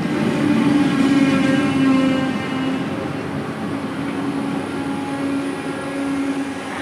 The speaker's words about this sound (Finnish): Pendolino 127 Helsingfors till Åbo anländer och avgår från spår 6.